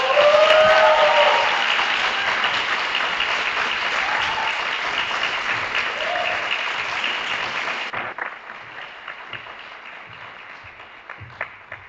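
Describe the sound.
An audience at a university event applauds as a student union president is welcomed. Loud, dense clapping opens and then settles, thinning to sparser, quieter claps in the last few seconds.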